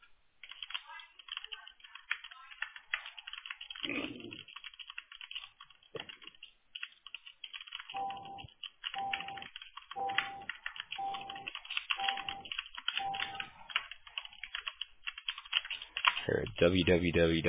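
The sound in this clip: A computer keyboard clatters as a message is typed, with many quick, light key clicks in irregular bursts separated by short pauses, and a louder flurry near the end.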